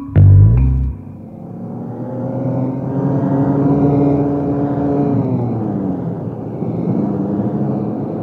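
A car drives along a country road: a heavy low thump opens, then a steady engine drone with a humming tone that dips slightly in pitch about two-thirds through. No voices.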